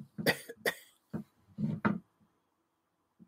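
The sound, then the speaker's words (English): A woman coughs into her hand, letting out a series of short, husky coughs in quick bursts with brief pauses between them, fairly quiet and with no talking. “She coughs in her hand.”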